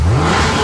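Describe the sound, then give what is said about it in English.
A car engine revving at a summer car meet, a short, loud and steady roar. “Can you hear that? That's not just horsepower.”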